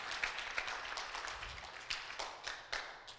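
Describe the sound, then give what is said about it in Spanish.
Audience applause at a church service: a fairly faint, steady wash of many hands clapping, with a few sharper individual claps standing out. “Come on, give the Lord a hand tonight. Dale un aplauso fuerte al Señor.”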